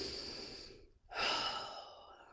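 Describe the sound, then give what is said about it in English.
A slow, deep breath taken before a guided affirmation meditation. It is soft and airy, with a brief pause and then a fuller, louder, drawn-out breath, heard alone. “Let's close eyes and take a deep breath and drop in for the affirmation today.”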